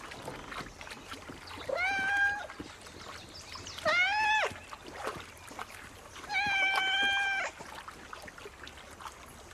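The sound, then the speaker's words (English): Three drawn-out, clear cat meows from a cat swimming in water after a drifting boat, each a few tenths of a second long and evenly spaced, rising above a faint, noisy background. “Cat surfaces, shaking its head dry. Cat turns to find the boat some distance away. Cat paddles after it.”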